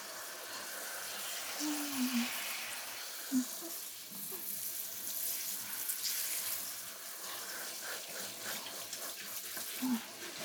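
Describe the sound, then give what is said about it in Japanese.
Hot water running from a tap rinses shampoo out of hair: a faint, steady splashing hiss that continues throughout, with small, soft splashes rising now and then. “じゃあ、お湯で流してくわね。”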